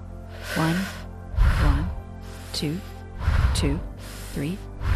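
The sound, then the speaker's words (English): Quick, forceful breaths drawn in and pushed out during a playful breathing exercise. A few short, breathy bursts come in pairs, with brief voiced sounds between them. “Since we're preparing your brain for playful movement, let's do some playful breath movements also. Inhale quickly and exhale quickly, 4 times each, like this.”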